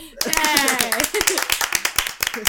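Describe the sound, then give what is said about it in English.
A small group of people clapping in celebration of a friend, crisp separate claps in an uneven steady rhythm, with a voice talking over the first part. “clap for Cliff. Yay.”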